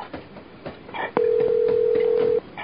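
A telephone being dialed: faint clicking pulses lead into a steady, single-pitched phone tone that holds for over a second before cutting off abruptly.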